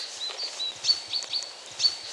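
Chaffinch aggression calls sound as a few short, sharp, high-pitched notes repeated at irregular intervals over a faint, soft background.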